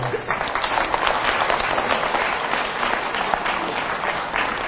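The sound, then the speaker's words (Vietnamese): Sustained applause from a Buddhist assembly celebrating a nun's 70th birthday. The clapping is dense, even and continuous throughout, with no pauses. “Thôi thì đại chúng cho ông tràng pháo tay để mừng”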